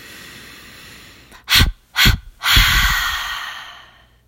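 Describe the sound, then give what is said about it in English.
Sharp inhales and forceful exhales in a breathing exercise: two short, loud breath bursts followed by one long, strong airy release that fades slowly. “I'll do it twice, inhaling sharply and then releasing ha ha ha. And again.”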